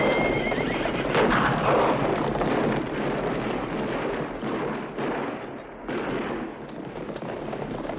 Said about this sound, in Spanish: Los forajidos huyen al galope dejando algunas bajas.